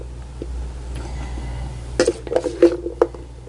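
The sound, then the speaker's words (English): A spoon scrapes and clinks against a plate while panzanella bread salad is served. After quiet rustling comes a cluster of several sharp, bright knocks, moderately loud, with no talk. “Let me just spoon that out on your plate real nice.”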